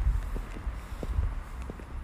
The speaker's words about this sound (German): und ich gehe nach Hause. Ich laufe zu mir nach Hause.